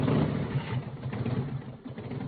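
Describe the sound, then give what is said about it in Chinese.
A motorcycle that had fallen into mud runs after being started, its engine giving a steady, rough, low rumble that continues throughout with no clear revving. “他擦了擦车把上的污泥，顺势将车发动起来，”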